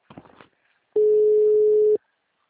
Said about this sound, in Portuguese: Tô ligando, tô tentando ligar pra ele, pra esse Antônio